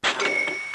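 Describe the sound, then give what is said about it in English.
A cash register ding announces an online sale: one bright, metallic chime that strikes sharply and then rings out with a steady, high tone for under a second. “Hey, I know that sound. In fact, I love that sound. It's the sound of another sale on Shopify”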